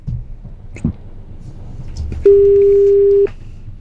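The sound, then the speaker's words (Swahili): A telephone rings on a call line while a caller is being phoned: one steady, mid-pitched ring tone lasting about a second, clear above a low background hum. “Acha tumtafute Sylvia. Cha tumpigie simu pale teketeke tupate kuyoja anapendwa ama anachezwa. Kwa standby, simu yake ndio inaitana.”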